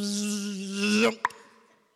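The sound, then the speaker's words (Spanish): A swarm of flies buzzes, as in the biblical plague filling a palace and its food. A steady, loud buzzing drone lasts about a second and cuts off, then a brief sharp pop follows with a faint tail. “Se llenó de moscas en todo lugar. Las moscas estaban en la comida, las moscas estaban en el palacio”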